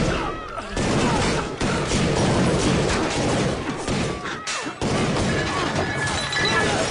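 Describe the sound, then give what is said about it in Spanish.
Heavy gunfire from a favela shootout scene in the 2007 film Elite Squad: loud, dense bursts of shots and crashing impacts run almost continuously, broken by a short lull near the start and another past the middle. “¿Quién disparó, hermano?”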